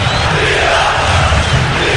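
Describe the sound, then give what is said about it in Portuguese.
Vila Nova football supporters cheering for their team: a loud, continuous crowd roar of massed voices that holds steady without a break. “Esse é o som que o vilanovense quer ouvir hoje, hein? Que som, hein? Que sonoro, hein, Zé? Esse é o som da torcida do Vila, que vibra, que empurra o Tigrão pra cima de mais uma vitória.”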